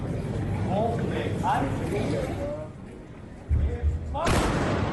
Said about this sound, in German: Seit letztem Jahr hat die Schützengesellschaft Kamenz das deutschlandweit erste und einzige weibliche Salutkommando. Dabei wird auf Kommando zu Ehren einer bestimmten Person oder eines Anlasses geschossen.